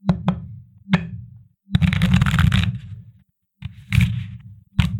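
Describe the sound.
Tarot cards being shuffled in a few separate bursts: two quick riffles, a single short one, then a long dense shuffle followed by two shorter ones. The bursts are fairly loud, with no talk.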